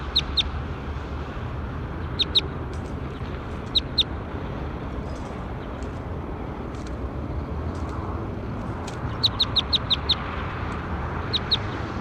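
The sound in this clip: Bird calling in short, high chirps that come in scattered quick clusters. The calls sit over a steady, loud, low rumbling background noise.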